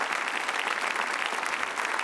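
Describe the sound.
Warm audience applause for a man at the close of an event, a continuous, even wash of dense clapping with no voices standing out.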